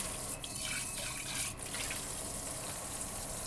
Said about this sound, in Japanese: お茶碗はすすいで、すすいで、